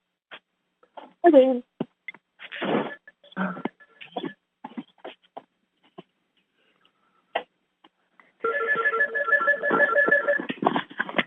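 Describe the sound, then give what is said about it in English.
A telephone rings for an incoming call on a live call-in line. The repeating electronic ring pulses steadily for the last few seconds, after stretches of talking and scattered short noises earlier on. “It's Terry calling on the other line.”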